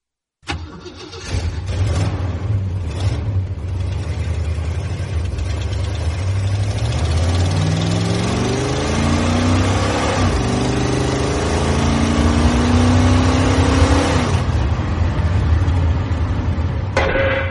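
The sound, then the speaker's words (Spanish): An Impala car engine cranks and catches, then settles into a steady, low idling rumble. It climbs in pitch through two revving runs before easing back to a loud, even drone. “Mi impala es mi más fiel compañero. Y su voz es el sonido del motor”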